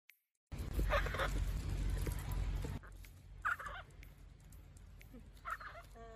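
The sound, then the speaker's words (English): Honking calls of orphaned flamingo chicks out walking with their keeper; a few short, faint bursts sit spaced apart over a quiet background. “Orphaned flamingo chicks take daily walks with their keeper, and this video is precious.”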